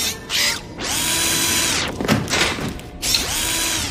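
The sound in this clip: A power screwdriver whirs during the repair of a broken machine, giving three bursts of motor whine, with the pitch climbing as the later bursts start up. Clanks and rattles come in the gap between bursts.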